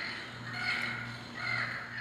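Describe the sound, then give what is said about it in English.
Recorded call of a Yucatan parrot, played from a museum-style educational push-button on a residential stairwell railing. It gives two quiet, hoarse, raspy squawks in quick succession. “And here's a button for the Yucatan parrot.”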